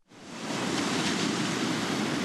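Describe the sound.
Ocean waves at Boiler Bay on the Oregon coast produce a steady, broad roar of surf that swells in quickly and holds at an even level, with no voices.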